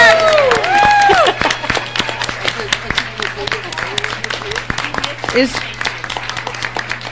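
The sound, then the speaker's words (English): Applause at a staff meeting welcoming a colleague who has just arrived. A voice speaks at the start, then many scattered hand claps follow over a low steady hum. “Can we please give her a hand of applause?”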